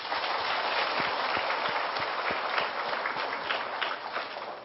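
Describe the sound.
Audience applause at a Buddhist dharma session during the Vu Lan season: a dense, steady wash of many hands clapping that holds at an even level throughout.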